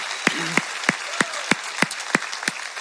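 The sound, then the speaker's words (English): A church audience at an Easter service applauds a testimony and the creative and worship teams, with steady clapping punctuated by evenly spaced, sharper claps throughout. “New Hope Leeward, can we give Heather another hand for her testimony and our creative and worship teams?”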